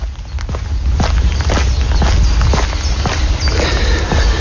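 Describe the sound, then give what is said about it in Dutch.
Footsteps on a walk through a polder: a steady, even run of many firm steps, loud and on their own over a constant low rumble. “Dit zijn mijn voetstappen tijdens mijn rondje polder.”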